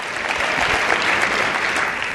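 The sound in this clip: A church audience applauds, a steady, dense wash of many hands clapping from start to finish, fairly loud and even, with no talk over it.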